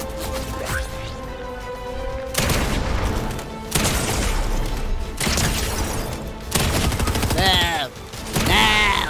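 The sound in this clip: Video game gunfire during a sniping match: several heavy, loud shots crack at intervals over a dense, ringing game soundscape with sustained tonal layers.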